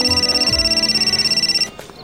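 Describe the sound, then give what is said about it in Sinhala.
Phone ringtone: a continuous electronic ring with a rapid, even warble, holding steady for about one and a half seconds before cutting off abruptly. “ඔය වෙලාවේ තමයි වසල්ගේ phone එකකින් උනේ.”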